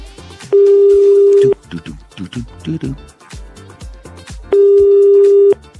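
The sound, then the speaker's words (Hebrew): A telephone is being dialed: a loud, steady electronic tone lasts about a second, a stretch of short, varied beeps follows, and then the steady tone returns. “בואו נחייג.”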